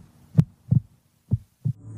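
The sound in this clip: A heartbeat sound effect of low, dull thumps: two double beats, each a quick pair of soft pulses, separated by a short silence and standing alone without voices.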